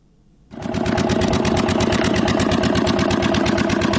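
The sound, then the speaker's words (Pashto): A generator engine powering a pipe-making factory in a Kandahar industrial park kicks in after a brief quiet moment. It then runs loud and steady with a rapid, even chugging pulse. “لدی جنراتور څخه د پایپ جوړولو د یو فابریکې لپاره برېښنا برابرېږي.”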